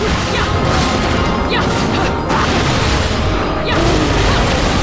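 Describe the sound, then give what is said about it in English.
Missiles fired and exploding in a video game as a monster breaks into a building, a loud dense barrage of booms, crashes and bursts that continues without a break. “Ah, he's shooting missiles!”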